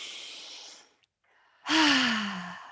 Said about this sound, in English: why don't we all take a breath again? Yes, let's take a breath again. Go.